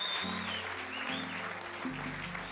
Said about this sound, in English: Would you put your hands together and welcome your pastor this morning? Come on, church.